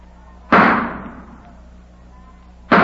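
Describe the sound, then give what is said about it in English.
Two sharp gunshots fired at a target with a curtain behind it, each a loud crack with a long decaying tail; the second shot cuts off at the end. “stop shooting. Put down that gun.”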